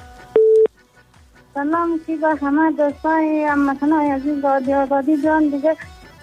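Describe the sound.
A single short, steady telephone tone as a caller disconnects from a call-in line. The beep is clear and brief, and a person talks for several seconds right after it.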